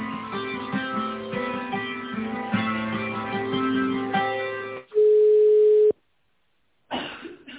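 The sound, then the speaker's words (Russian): Telephone line sounds while a call is being transferred. Tinny hold music plays for about five seconds, then one steady tone lasts around a second. A short silence follows, then a brief burst of line noise at the end. “Так, сейчас я вас на иркутского менеджера переключу еще раз.”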